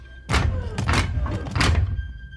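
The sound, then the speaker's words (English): Heavy steel blast door reinforcements fold shut on either side of a bulkhead, giving several loud, dull metallic thunks and thuds in quick succession over a low rumble, with no voices. “causing the steel reinforcements to fold shut on either side of the bulkhead”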